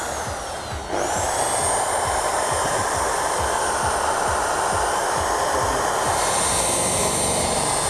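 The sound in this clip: A polishing machine set to a fast speed, its pad tilted at 30 degrees and moved back and forth, kicks in after about a second with a loud, steady motor drone and a thin high whine.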